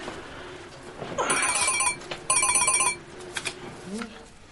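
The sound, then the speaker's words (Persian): Telephone ringing in two electronic bursts, each a high, bright harmonic trill separated by a short gap, then quieter sounds afterward. “بابا پشت تلفن جواب بده”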